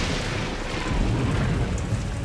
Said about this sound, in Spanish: Todo sucedió una tarde durante la peor tormenta que ha caído en toda la historia de Irlanda.